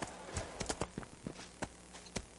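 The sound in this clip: Horse hooves clip-clopping as a rider travels in a video game: a few sharp hoof knocks in an uneven trotting rhythm, fairly quiet over a soft background hum.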